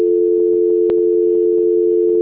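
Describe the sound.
A steady telephone tone plays during a call transfer, holding one unbroken mid pitch throughout, with a single brief click partway through and no voices.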